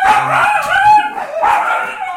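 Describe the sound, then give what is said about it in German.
A dog barks and yips in two short, high-pitched bursts, fairly loud and with no other sound. “oder war es ein Hund? Nein, das war die Rosi, die hier ausläuft. Ich muss die mal kurz rauslassen.”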